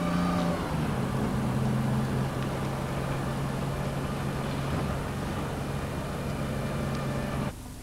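A bus drives along, its engine giving a steady low drone with a constant hum and broad road noise throughout. The sound cuts down sharply just before the end.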